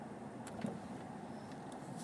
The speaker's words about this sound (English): I don't know how many cars in this area. It's ridiculous. Every direction is fucking packed.